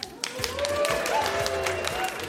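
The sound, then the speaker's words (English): Applause from a ceremony audience asked to clap, a continuous crackle of many hands held at an even level throughout, with a few voices mixed in. “Applaud if you agree.”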